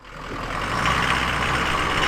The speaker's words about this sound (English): Chattanooga musher Dan Caduce pulls his truck into a warehouse in South Fairbanks